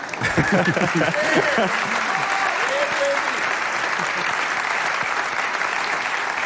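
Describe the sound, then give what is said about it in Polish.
Loud, dense applause from an audience at a jazz music awards ceremony, a steady wash of many hands clapping that holds evenly throughout. A voice is heard over the clapping near the start. “Wielkie brawa.”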